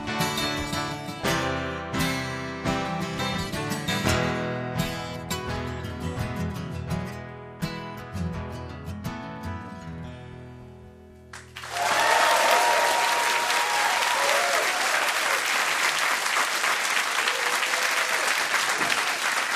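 A rock song intro played live before a studio audience at Maida Vale: layered guitar chords and melody for about eleven seconds, then loud, sustained applause and crowd noise that fill the rest.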